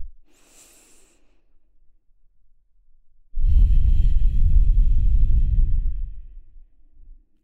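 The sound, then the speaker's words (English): Deep breathing through the nose: a faint, airy inhale, then after a pause a loud, rushing exhale that lasts about three seconds and trails off softly. “In and out through your nose, fully expressed breath.”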